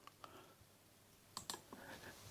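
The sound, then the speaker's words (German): Faint, sharp clicks of buttons being pressed in a studio: a few isolated clicks early on, then a brief cluster of them toward the end, all quiet over a low background hiss. “Und jetzt ganz kurz die Knöpfe drücken.”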